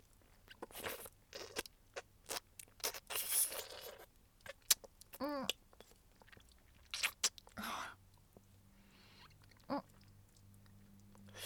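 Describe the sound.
Wet mouth chewing and smacking sounds form a series of irregular sticky crunches and squelches at low level, with a couple of brief vocal hums between them.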